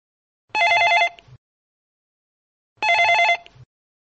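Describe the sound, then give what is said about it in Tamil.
A telephone rings for an incoming call: two bright, buzzing bell rings, each under a second long, separated by a silent pause of about two seconds, with no voices. “அம்மா, இங்க ஒரு அழைப்பு வந்துருச்சு, அதை பார்க்கலாம்.”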